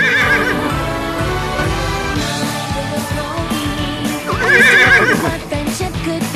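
A horse whinnies twice, a loud wavering neigh at the start and another near the end, with a busy run of hoof clops and thumps in between.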